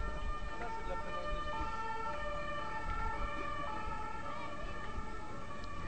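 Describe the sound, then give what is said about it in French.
A loud emergency siren wails steadily over the broad rumble of cars passing along a street, the siren and traffic noise filling the whole stretch without a break. “On va laisser passer les voitures et puis après on va reprendre.”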